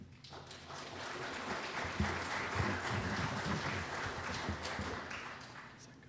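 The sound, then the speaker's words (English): Audience applause welcoming a guest speaker as he comes up to talk about prison ministry, a continuous, fairly soft patter of many hands clapping that lasts about six seconds without a break. “And so would you welcome Troy Nelson as he comes up.”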